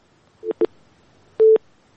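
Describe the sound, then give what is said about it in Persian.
A busy tone sounds on a disconnected phone call as a few short electronic beeps at a steady mid pitch, the last one held longer, with silence between them. “باز هم تماس داریم اما فکر کنم قطع شده تماس.”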